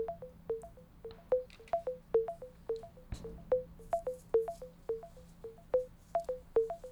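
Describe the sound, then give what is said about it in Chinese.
Repeating electronic beeps from a computer screen-recognition app: many short, mid-pitched tones in a steady, quick rhythm, heard alone. “然后在识别的过程中也会有一个音效。”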